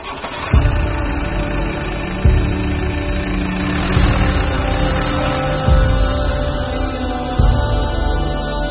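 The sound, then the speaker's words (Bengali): A car engine runs with a steady, mid-pitched droning rumble, interrupted by five short thumping bursts that recur at fairly even intervals. “গাড়ি start দিন।”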